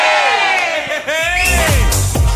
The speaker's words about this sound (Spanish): ¿Se pegan un grito todos?